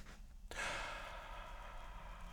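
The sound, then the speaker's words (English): A person draws in a deep breath while demonstrating diaphragm breathing. A sudden airy intake turns into a long, steady, faint inhale. “So let me show you. So when we breathe in,”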